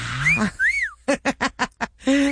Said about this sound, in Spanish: ahí les va este chiflidito. Para que se acuerden cuando iban por la coca y le chiflaban.